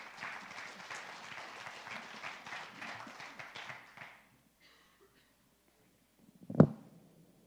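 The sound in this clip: An audience applauds to welcome the next speaker at a storytelling gathering. About four seconds of steady, modest clapping stops abruptly, followed by silence and then a single dull thump.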